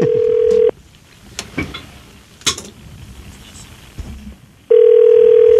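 Telephone dial tone, a steady bright hum that cuts off, followed by a few short clicks and blips as a number is dialed, then the tone returns loud and steady at the end.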